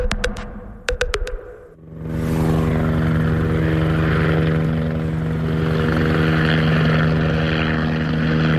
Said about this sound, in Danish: Det vi hører her, det er lyden af en politihelikopter over Nørrebro.